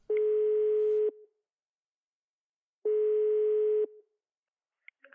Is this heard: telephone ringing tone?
yes